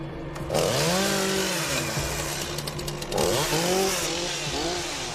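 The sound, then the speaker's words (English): A chainsaw runs in a cornfield, its engine droning steadily with repeated surges in pitch as the throttle opens and eases, fairly loud and with no voices. “He starts his chainsaw.”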